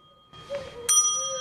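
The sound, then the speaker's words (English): A front desk bell is rung by a slap on its button, giving one bright, sharp metallic ding that rings on and fades slowly after a faint soft knock just before it. “She tries to stop him ringing the bell, but he slaps the button with his other hand, irritating her.”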